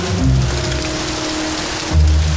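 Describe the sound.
Rain falls heavily and steadily during a bicycle ride, as a loud, unbroken hiss. A low rumble swells briefly near the start and again toward the end.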